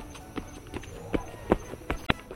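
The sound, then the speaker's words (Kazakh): Footsteps crunch through crusted snow, each step breaking the crust. The crunchy treads come in a steady, evenly spaced series and grow slightly sharper toward the end, over a quiet background. “Басқан сайын күртік қар ойылып, одан бетер сықырлай түсті.”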